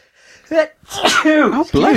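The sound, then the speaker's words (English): A person sneezes while eating, a sudden sharp breathy burst followed by loud voiced, vowel-like sounds, abrupt and close-sounding. “Excuse me. I apologise for the eating and the sneezing.”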